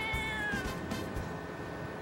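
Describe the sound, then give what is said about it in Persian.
A street cat in Istanbul meows once in a drawn-out cry whose pitch drops as it fades, followed by steady low background noise. “تعداد گربه‌های خیابونی در ترکیه به قدر زیاده که این گربه‌ها تبدیل به نماد استانبول پایتخت ترکیه شدن.”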